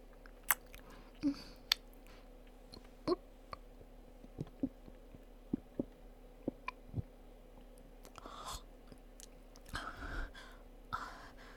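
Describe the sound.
Faint biting and chewing while eating a meal: many sharp, irregular clicks and crunches scattered through a quiet stretch, with a softer, busier patch of moist chewing toward the end.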